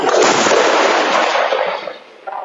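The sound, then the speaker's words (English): Israeli artillery guns fire shells in a loud morning bombardment near the Lebanese border, shortly before a ceasefire. A heavy, continuous roar of blasts fades after about two seconds, then a smaller report follows near the end. “Israeli guns still firing as they have been all night.”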